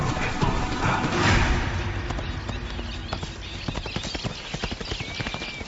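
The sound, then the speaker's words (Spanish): Zebra hooves gallop as the herd chases a young leopard. A heavy rumble of drumming comes first, then many sharp, rapid hoofbeats in an uneven, pounding rhythm. “Sonidos de la persecución de las cebras a la joven leopardo.”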